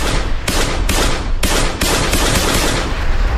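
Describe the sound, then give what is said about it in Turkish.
Gunshots fired at a jewellery shop on a street in Diyarbakır's Bağlar district at 3 a.m.: a loud, rapid run of shots that blurs into a dense, continuous volley, with no voices. “Bir kişi silahla cadde üzerindeki kuyumcunun önüne geldi. Bir anda kuyumcuya doğru ateş açtı.”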